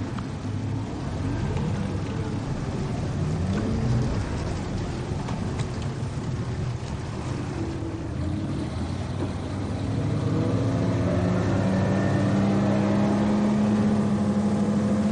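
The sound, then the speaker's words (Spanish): Two motorboats start up and speed away across the dark waters of an estuary, a steady low engine drone that grows louder toward the end. “lanchas se ponen en marcha y escapan cruzando las aguas como había planeado Antón.”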